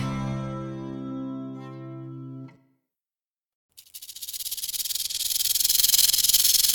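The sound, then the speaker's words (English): Rattlesnake rattle: hard keratin rings at the tail tip shaken rapidly, a dry, hissing buzz that starts abruptly after a silence and swells in loudness, following a fading sustained tone. “That telltale rattle is made by the rapid shaking together of hard rings of keratin at the tip of the creature's tail.”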